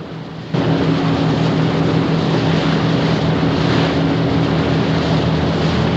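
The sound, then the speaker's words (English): A motorboat with an inflatable tethered alongside speeds across the water toward men in the sea. A steady, loud engine roar and rushing water cut in abruptly after about half a second and hold evenly to the end. “as the boat speeds towards the men, he extends it for them to grab hold of.”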